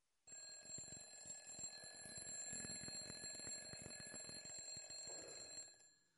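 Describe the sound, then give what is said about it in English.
An alarm clock goes off in the middle of a church sermon, a loud, steady metallic ringing that runs unbroken for about six seconds before cutting off. “Going off. Evidently, someone had planted an alarm clock right in the middle of my sermon to distract me.”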